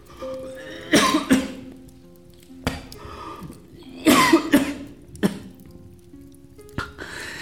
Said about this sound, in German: Dieser Husten, er wird nicht weggehen.